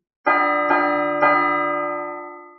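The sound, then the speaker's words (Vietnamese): A loud warning bell from a tower rings out with three strikes in quick succession, each adding to a bright, rich metallic tone that hangs on and slowly fades after the last strike. “Tiếng chuông chói tai vang vọng cả không gian”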